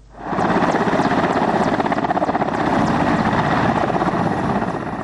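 An Afghan army helicopter flies over Lashkar Gah. Its loud, steady rotor thumping and engine roar swell in quickly at the start, then hold a constant pulsing drone.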